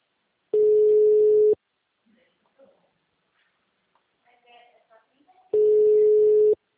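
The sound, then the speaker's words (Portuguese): Telephone ringback tone heard while a call is placed again: two steady, one-second tones about four seconds apart. Faint handling noises fall in the quiet gap between them. “Eu vou ligar de novo.”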